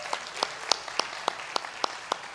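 Steady, even clapping during a Vineyard church service welcoming the online family: a regular run of single sharp claps, fairly faint, with no cheering evident.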